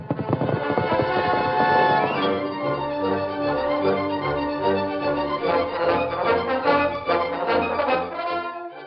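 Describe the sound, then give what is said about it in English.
A horse gallops at top speed at twilight, its fast, steady clip-clop hoofbeats running without pause beneath loud, dense orchestral music for the whole stretch. “The Lone Ranger rode at top speed in the gathering twilight.”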